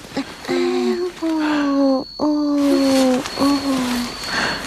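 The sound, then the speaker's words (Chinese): A hungry baby crying in several long, drawn-out wailing bursts, each a strong, tonal cry separated by short breaths, fairly loud and steady in pitch. “不哭了，不哭了啊！ 哦，乖啊！哎呦，小宝贝饿了啊！”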